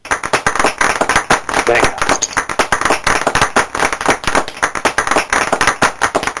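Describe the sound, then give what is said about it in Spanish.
A short round of applause dedicated to health workers during a stay-at-home special, heard as many quick, sharp claps in a steady, even patter that carries on throughout. “Ahí va un pequeño aplauso que debería ser mucho más largo y seguro que a las 8 lo será”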